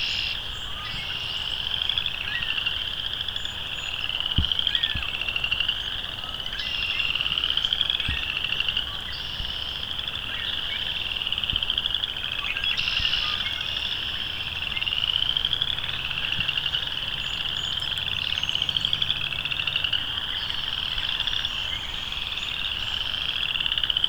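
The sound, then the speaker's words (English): Chorus frogs call steadily, many overlapping short, rising ratchet-like trills repeating in a dense, continuous chorus, with a few faint clicks beneath. “Though I don't know if they've solved the whole western versus boreal chorus frog thing, but chorus frogs for sure.”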